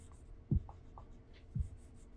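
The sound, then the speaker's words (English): Two short, faint writing strokes draw a cross, each a quick scratchy stroke about a second apart, in otherwise quiet surroundings. “So up here, I'm going to draw a cross.”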